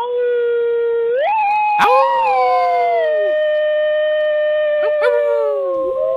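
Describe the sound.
A long, drawn-out howl as a sound effect. The harmonic tone climbs in pitch, then holds a loud, wavering note for several seconds, with a couple of sharp clicks mixed in.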